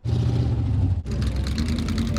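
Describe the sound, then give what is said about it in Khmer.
Antique cars race at a county fair in Adams County, Pennsylvania, their engines a loud, continuous rumbling roar that abruptly shifts about halfway to a brighter, harsher engine tone. “នេះជាការប្រណាំងរថយន្តបុរាណនៅកន្លែងតាំងពីពណ៌មួយនៃស្រុកអាដាមរដ្ឋ Pennsylvania”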